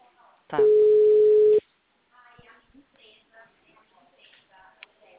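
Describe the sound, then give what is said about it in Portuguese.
A single steady telephone ringing tone sounds for about a second while a call is placed, level and unbroken, followed by faint murmurs and soft noises. “Tô ligando.”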